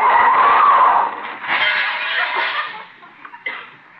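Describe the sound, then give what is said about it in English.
A car brakes and skids, opening with a loud tire squeal lasting about a second, then rougher scraping noise that fades, with a few short knocks near the end. “Step on the brake.”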